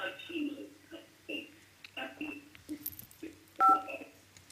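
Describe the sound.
A short, loud electronic telephone tone from an incoming call on a radio phone-in, sounding near the end after stretches of people talking.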